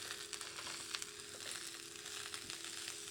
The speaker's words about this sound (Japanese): 茹で上がったパスタとみりんを加えたいと思います。入れていきます。